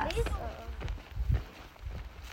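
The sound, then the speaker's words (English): Footsteps of a hiker walking back out of a canyon in the morning after sleeping there, a few uneven, scuffing steps with soft thuds at an unhurried pace. “Last night I slept in a canyon. This is the sound of me hiking back this morning.”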